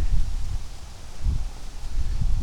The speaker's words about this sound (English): In the wind. Walking under an oak tree.